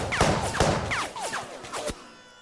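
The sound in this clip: Gunshots fired at a hulking creature: a rapid volley of several sharp cracks, each trailing off in a falling, whistling tone, fairly loud and with no voices.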